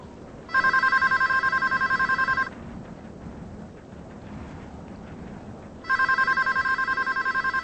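A telephone bell rings in two bursts of rapid, trilling electronic rings, each lasting about two seconds and separated by a quiet pause, over faint background noise.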